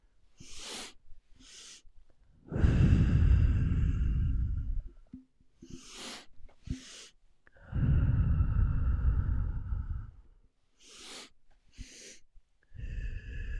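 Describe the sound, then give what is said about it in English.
Slow, deep breathing: two long, full, loud breaths of a few seconds each, with shorter, quieter sniff-like intakes between them and no talking. “Just a few more breaths. One may be long, then the second inhale.”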